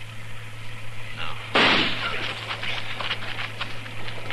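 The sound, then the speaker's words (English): A single gunshot is fired at a tree: one sharp, loud blast with a short decaying tail, standing out over a steady low background hum. “I'm going to flip a shot at the tree, Chester. Roll away as soon as I fire.”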